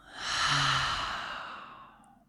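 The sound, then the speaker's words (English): A long, deep breath taken during a guided breathing practice, heard as one airy swell that rises quickly, holds and then slowly fades away, with no talk. “Let's take a long, deep breath in and a long, deep breath out.”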